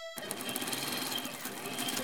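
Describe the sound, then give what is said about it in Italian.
A sewing machine stitching, starting after a brief moment of quiet and then running in a fast, steady mechanical whirr and clatter with an even rhythm throughout. “cucire.”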